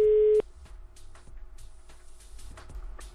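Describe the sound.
A telephone ringback tone on an outgoing call: one steady mid-pitched tone that cuts off abruptly after a fraction of a second, leaving quiet line hiss with a few faint clicks.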